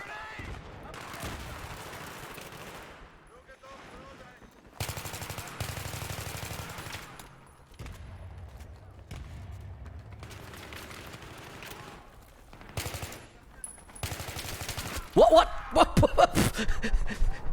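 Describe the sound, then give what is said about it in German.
Rapid video game gunfire during an online shooter match, with someone apparently shooting through a wall. Loud automatic bursts come and go several times, and a dense, crackling volley builds toward the end. “Durch die Wand schießen, oder was ist das?”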